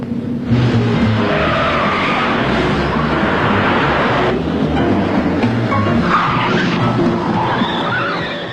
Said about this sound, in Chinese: 一场精彩的追车表演开始